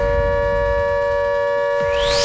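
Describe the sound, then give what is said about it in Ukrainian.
An air raid siren from an automatic warning system holds a steady, loud tone rich in harmonics. Near the end, a rising sweep climbs over low rumbling noise. “Так, друзі, ось таке дуже своєчасне нагадування від нашої автоматичної системи оповіщення.”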